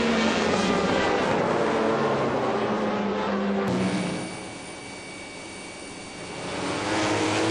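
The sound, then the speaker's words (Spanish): Racing motorcycles roar down the end of the straight at the Motegi circuit. The loud, high-revving engine noise eases briefly and then swells again. “Sin duda espectacular la melee de motos y pilotos que se organiza en el final de recta del circuito de Motegi.”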